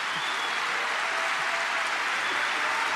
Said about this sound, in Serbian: Molim vas, ako može još jedan burni aplauz za kolege.